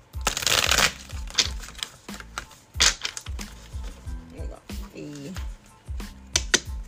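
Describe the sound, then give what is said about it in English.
Tarot cards are taken out and shuffled in a run of papery riffles, flicks and light taps, with a voice audible underneath throughout. “So, we're going to get some tarot cards out. And we're going to see where spirit want to stay.”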